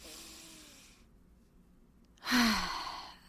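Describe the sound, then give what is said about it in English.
A deep breath taken in a guided breathing exercise: a soft, drawn-in inhale, then a louder, airy, sighing exhale near the end. “Let's breathe in what was in alignment for us this week and breathe out what was out of alignment for us this past week.”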